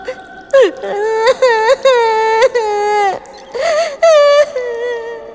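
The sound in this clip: A girl crying while lost in a cave: loud, drawn-out wailing sobs in a high, wavering voice, broken by a few short pauses and gasps.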